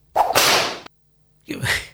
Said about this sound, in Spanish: Ahí está el top. Le están pegando con un látigo. Es un top violento este.